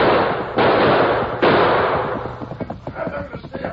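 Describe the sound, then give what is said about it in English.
Gunshots: two loud, abrupt cracks, each trailing into a lingering rumble, followed by a run of smaller sharp pops that thin out toward the end. “Use your gun, Tonto.”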